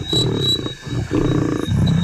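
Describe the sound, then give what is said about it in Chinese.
A male lion growls over a small prey carcass, guarding it from other lions: deep, rumbling growls come in three loud phrases separated by brief breaths, with no voices. “猎物个头不大，雄狮霸占着猎物，拒绝与其他狮子分享。”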